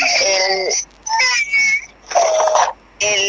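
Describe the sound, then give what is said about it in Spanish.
A young child cries in several drawn-out, high, wavering wails separated by brief pauses, loud and alone. “Ven, hijo, vamos. Sí, mi hijo está llorando.”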